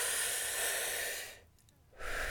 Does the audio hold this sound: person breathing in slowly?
yes